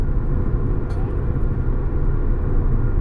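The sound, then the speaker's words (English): A car being driven gives a steady low engine and road rumble that holds at an even level throughout, with no clear changes in pitch. “I'm driving.”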